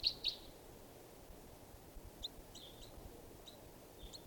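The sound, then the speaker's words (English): A juvenile bird calls in faint, high, short chirps: two quick notes at the start, then scattered single chirps over steady low background noise. “this is one of the birds. It's a juvenile.”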